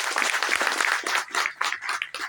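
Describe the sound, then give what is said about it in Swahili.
An audience applauds in uneven, surging bursts of clapping that rise and dip several times before a final flurry. “Kwa hiyo hebu mjipigie makofi kwa hiyo.”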